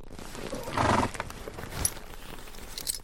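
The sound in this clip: Horse sounds as a rider mounts and sets off after filling a water skin to the brim: a short, loud, noisy burst near the start, then a single sharp thud, all fairly faint.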